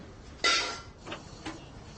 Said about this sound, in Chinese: 给你爸开门去，我又忘带钥匙。